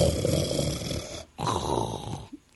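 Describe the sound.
A voice imitating a person snoring: two long, loud, rattling snores in a row, each with a short gap of breath between, ending in a brief snort-like catch.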